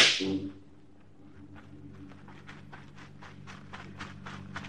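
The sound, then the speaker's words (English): A single gunshot fired to get someone's attention cracks loudly at the start and decays quickly, followed by a steady run of soft rhythmic knocks like hoofbeats. “Are you deaf? Did you not hear me shoot off a gun to call your attention?”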